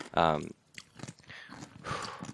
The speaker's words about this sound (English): I gotta stop eating these pickles for a second.